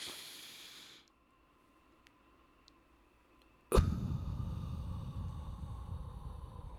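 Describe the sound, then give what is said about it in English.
Deep breathing during a breathing exercise: a soft airy breath, a quiet pause, then a sudden loud, sustained blowing exhale that stays strong to the end. “We're going to breathe in for 3 seconds. And we're going to blow out for 3 seconds. We're going to do that 3 times. Starting now, we're going to breathe in deep.”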